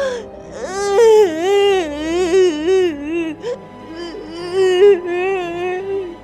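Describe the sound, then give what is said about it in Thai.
A voice imitates a rabbit crying in a children's story, with loud, drawn-out wailing sobs whose pitch wavers up and down in long moaning phrases broken by short pauses. “แต่กระต่ายตัวเดียวเท่านั้น ที่ยังคงนั่งร้องไห้ เพราะว่ามันสอบตกทำไมมีแต่ฉันที่สอบตกคนเดียว”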